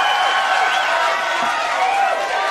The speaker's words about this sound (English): As you can tell, yes, we have an audience with us tonight.